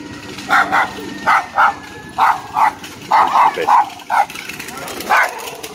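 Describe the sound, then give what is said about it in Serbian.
A frightening dog barks over and over, loud sharp woofs often coming in quick pairs, against a steady background noise. “kako da se ne uplašiš od takvog psa”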